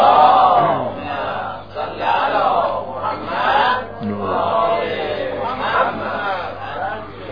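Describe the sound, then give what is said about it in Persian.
An audience reciting the salawat blessing together at a religious gathering, with many voices chanting in unison in a few swelling phrases that rise and fade. “صلواتی مرحمت کنید.”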